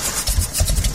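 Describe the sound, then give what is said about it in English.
A struggling diesel truck engine gives a short, uneven low rumble with rough chugging pulses under a hiss, lasting about a second. “That sound is a major headache. For diesel truck and fleet owners, a struggling engine means lost time, lost income, and canceled plans.”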